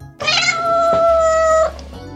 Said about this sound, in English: Cat. Cat. Oh, what a cute kitty cat. A cute kitty cat.